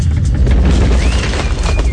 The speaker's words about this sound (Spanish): ¿Y si hay un terremoto?